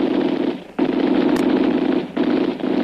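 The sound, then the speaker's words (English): Machine gun fire in a sustained, loud rattle: three long bursts separated by two short pauses, with no voices. “We'd have a better one if we could put that machine gunner out of business. He wastes many bullets on us”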